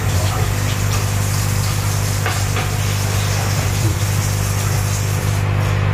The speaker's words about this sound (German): so mal kurz abspülen Deckel abspülen